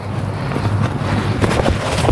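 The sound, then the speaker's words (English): Strong wind blowing outdoors on a windy afternoon after rain, a steady, loud rushing roar with a low rumble and buffeting on the microphone throughout, and no voices. “it's still windy as hell.”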